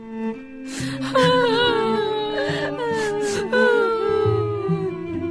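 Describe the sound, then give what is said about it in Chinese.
Two sisters cry and sob while mourning their dead brother at his tomb: wavering, wailing tones that rise and fall in pitch, with continuous whimpering and no spoken words. “他们来到拉撒路的坟前，两个姐姐一想起死去的弟弟，又忍不住哭”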